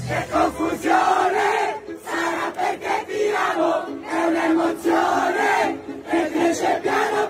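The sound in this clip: A large crowd sings an Italian pop song loudly and fervently in unison, many voices blending into a sustained, pitched chorus that swells and dips continuously without pause.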